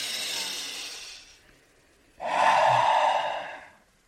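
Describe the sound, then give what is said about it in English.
A slow, deep breath taken as a calming exercise: a soft, airy intake, then after a brief pause a louder, fuller breath out that fades away. “taking just a big deep breath and like follow your breath with your attention”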